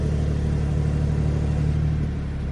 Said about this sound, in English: It just spins the car up straight away and starts the engine. And then you get that great sports exhaust as well.